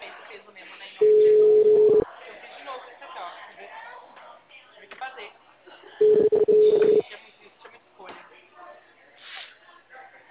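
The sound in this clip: Phone ringback tone on an outgoing call to a client, two steady mid-pitched tones about a second long each, spaced several seconds apart, while people talk throughout.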